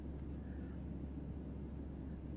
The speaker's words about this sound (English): And now I'm on the plane.